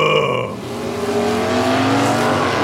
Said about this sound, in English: We're in an illegal street race. All the more reason to apply some caution. Besides, I don't see any of the other racers